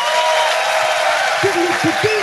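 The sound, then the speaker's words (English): An audience gives a round of applause to comedian Tim Key, a steady and fairly loud wash of clapping. A voice cuts in over the applause toward the end. “Ladies and gentlemen, will you please give a fantastic round of applause to the amazing Tim Key.”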